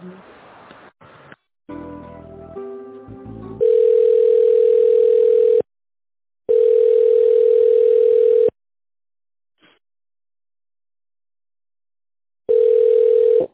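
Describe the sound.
Telephone tone heard while a call is transferred to management: brief muffled line sounds first, then long, steady, low-pitched tones of about two seconds each, separated by silent gaps, with a final tone cut off at the end.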